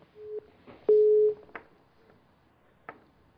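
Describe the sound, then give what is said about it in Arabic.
Telephone disconnect tone after a call drops on a phone-in line: a couple of steady mid-pitched beeps, the second louder and longer, followed by faint clicks. “طيب فصل الخط. طيب انقطع الاتصال.”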